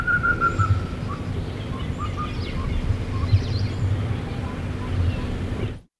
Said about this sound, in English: That was the call of the black cuckoo at my house at Nairobi on the 24th of January 1965, heard only.